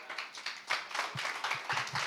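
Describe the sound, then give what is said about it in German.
Short burst of applause from an audience clapping for a guest at a Christian gathering: dense, steady patter of many hands, moderately loud, lasting about two seconds with no talk over it. “lass uns einfach einen kurzen Applaus geben für Henry.”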